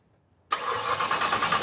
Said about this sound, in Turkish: Yani sen marşa basacaksın, ben de üflemiş olacağım.